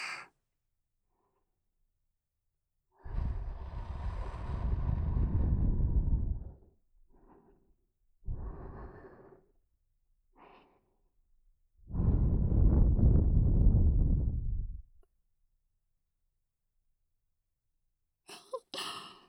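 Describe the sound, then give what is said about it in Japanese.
Breath is blown into the ear during ear cleaning: two long, loud, rushing blows, each several seconds, are separated by a few brief softer puffs and quiet pauses. “息を吹きかけるたびにお顔緩んじゃったね。”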